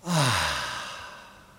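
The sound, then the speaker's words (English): A deep breath released as a voiced sigh, opening with a brief hum that falls in pitch and then thinning into a soft breathy exhale that fades out over about a second and a half, heard alone. “Take a deep, deep breath. Hold it for a few seconds if you can. And then release it.”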